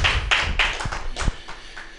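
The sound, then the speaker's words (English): Scattered handclaps from a small open-mic audience: a few sharp, separate claps with uneven gaps rather than a full round of applause, fairly faint. “How about a little applause for our Kaiser, the Emperor of the Open Mic?”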